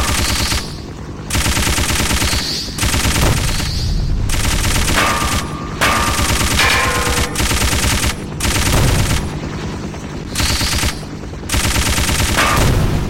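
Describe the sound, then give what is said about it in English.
Machine gun fire in a video game comes in several long, loud bursts of rapid rattling shots. Short pauses separate the bursts. “Ooh, he's shooting a machine gun at me.”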